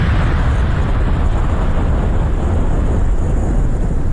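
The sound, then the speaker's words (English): Bomb explosion sound effect: a loud, deep, sustained rumbling roar that holds steady for several seconds without a distinct sharp blast at the start or any fade at the end. “Where's the bomb? I need one of those bombs like is going to fall on Iran tonight. There it is.”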